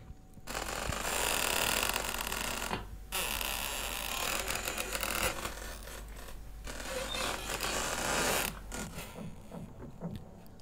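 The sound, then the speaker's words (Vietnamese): Old door hinges creak as a door is slowly opened into a house: a long, grating, rasping texture that sustains for about ten seconds, broken by two brief pauses. “Về phần ông Ba, từ từ mở cửa bước vào trong nhà. Tiếng bản lề cũ kỹ vang lên đến giận cả người.”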